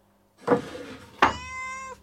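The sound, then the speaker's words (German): A cat hidden under a kitchen stove meows, first a short rough call and then a longer, clear tonal meow that holds steady before stopping, with no talk over it. “Du, die Katze ist da, die muss da wo sein, das kommt unter den Herd raus.”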